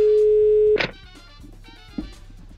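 A steady, continuous telephone dial tone hums while placing a call, then cuts off abruptly with a brief click-like burst, leaving only faint background noise.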